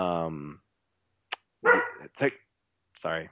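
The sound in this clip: A dog barks in a few short, sharp bursts separated by brief silent pauses.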